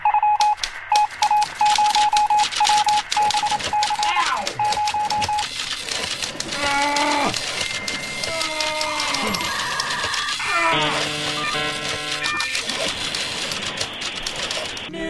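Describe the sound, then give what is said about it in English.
Teletype clatter in a news sound effect: busy, rapid mechanical tapping that runs throughout, later joined by strings of short electronic beeps and tones, loud and dense. “you totally wrecked the news sound. I'm going to have to play it.”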